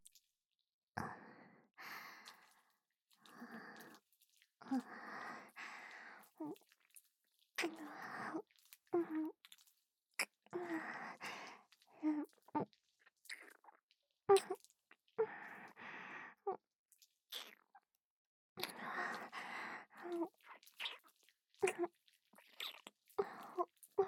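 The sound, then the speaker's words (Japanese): Soft kissing sounds with wet lip smacks and breathy sighs, many quiet bursts in an irregular rhythm with short silent gaps between them. “キスもさせていただきますね。”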